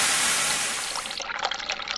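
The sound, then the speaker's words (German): Gentle splashing water from an ultrasonic cleaner's water jet, a bright continuous hiss that softens after about a second into a steady, bubbly trickle of small irregular splashes. “mehr und mehr ersetzt durch das dezente Plätschern aus dem Ultraschallreiniger”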